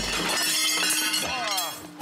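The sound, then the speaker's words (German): A sandstone block breaks at a quarry in the Baumberge hills near Billerbeck, with brief cracking and crunching impacts while people talk over it. “Ist er kaputt? Kaputt gemacht, den Stein.”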